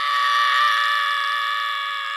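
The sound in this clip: A boy screams in fear: one long, high-pitched shriek held at a steady pitch for over two seconds, loud and alone.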